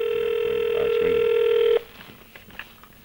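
Telephone line tones on a call: a steady electronic tone with a couple of brief beeps over it cuts off abruptly after almost two seconds, leaving faint line noise.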